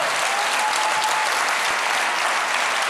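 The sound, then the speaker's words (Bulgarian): A church audience applauding during a service, a thick, uniform wash of many hands clapping at a constant level for three seconds. “О, ако ръкопляскаш, ръкопляскай, като ще го направиш.”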